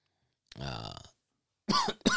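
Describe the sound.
A single rough, throaty cough from someone who recently quit smoking. It is a short voiced burst, then a pause, and then speech begins.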